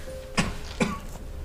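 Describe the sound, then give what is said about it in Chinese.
Two short, faint coughs from a person, spaced less than half a second apart, each a brief rough burst against a quiet background. “咋还咳嗽上了？”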